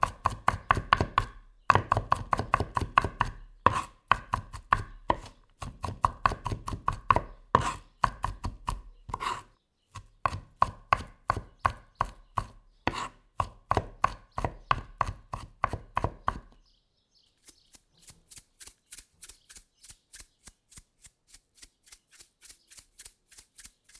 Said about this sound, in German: Anschließend hacke ich den Knoblauch und salze ihn.